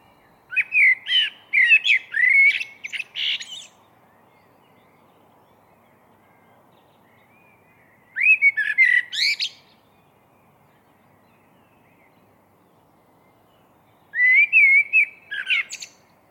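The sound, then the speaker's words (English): A blackbird sings in chilled pre-dawn darkness, in three separate bouts of bright warbling, fluting phrases. The first bout is the longest, and long silent gaps fall between them. “This blackbird was singing out of the chilled pre-dawn darkness. It's one of the most spirited and passionate songs I have ever heard on any continent.”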